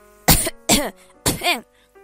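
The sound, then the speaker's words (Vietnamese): A woman coughs hard and dry into a clenched fist held at her mouth: three loud, forceful coughs with short voiced tails, spaced a moment apart, then a faint sound at the end. “Nàng siết chặt tay thành hình nắm đấm, đặt bên miệng ra sức ho khan.”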